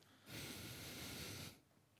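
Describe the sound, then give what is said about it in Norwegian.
A single long breath blown through the nose straight into a microphone: a loud, steady, breathy rush lasting a little over a second, with near silence before and after. “Hvem var det som pustet med nesa inn i mikrofonen?”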